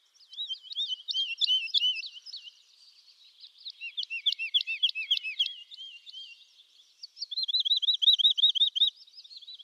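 An unfamiliar bird sings near a pine forest in three bright, high phrases of rapid trilled notes with short pauses between them, the last phrase a smoother, more even warble.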